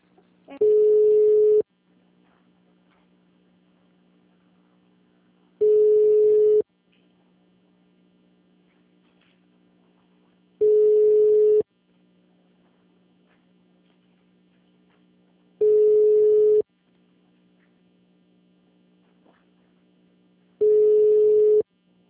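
A telephone rings for an incoming call, sounding five steady one-second tones evenly spaced about five seconds apart over a low continuous hum.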